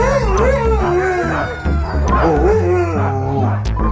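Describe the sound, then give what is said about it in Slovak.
A pack of Siberian huskies and Alaskan malamutes howl together, with several loud, overlapping howls that waver up and down in pitch and carry on without pause. “Huňaté sibírske hásky a aliašské malamuty.”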